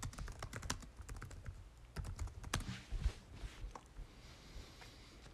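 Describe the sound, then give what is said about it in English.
Keys clatter on a computer keyboard as a fantasy football draft pick is typed in, with many quick, irregular taps at a soft level and brief pauses between bursts. “Okay, I'm going to write that down, and then I'm going to give you guys my third round pick.”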